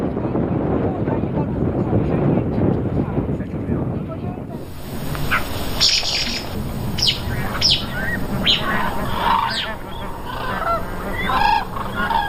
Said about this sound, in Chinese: 如果是幼鸟失散了，它会发出这种比较急促的这种那种叫声。 对于黑颈鹤的习性研究还在继续。